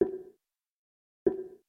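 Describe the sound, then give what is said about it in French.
VoiceOver screen reader cue for the cursor hitting the edge of the screen: two dull, low thumps, each with a short fading tail, separated by about a second of silence. “Si vous déplacez le curseur VoiceOver et qu'il bute contre la paroi de l'écran, on va dire entre guillemets, c'est-à-dire qu'il ne peut plus aller plus loin, on entendra ce son.”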